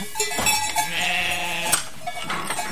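Ewes bleat as their flock arrives home, several wavering, overlapping bleats rising above a busy background, with faint clanks now and then.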